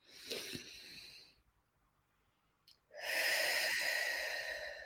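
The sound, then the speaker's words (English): Deep breathing: a long breath drawn in through the nose and a breath let out through an open mouth, two soft, airy rushes separated by a short quiet pause. “And then you're going to exhale, open mouth. So we're going to take a few nice deep breaths like that.”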